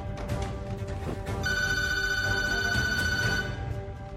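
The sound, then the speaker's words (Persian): A telephone rings in one sustained electronic trill lasting about two seconds, its bright high tones steady and even, sitting over a dense, busy layer of other background sound. “آرتمیس تلفن رو جواب نده.”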